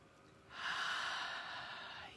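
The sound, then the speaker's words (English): A deep breath drawn in during a guided breathing exercise: after a short quiet pause, one long, airy inhalation swells up and holds, soft and sustained to the end. “And eternal breath, an ancestral breath, an ancient healing breath. Let's do it together. 3, 2, 1.”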